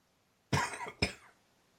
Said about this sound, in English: You got a cough?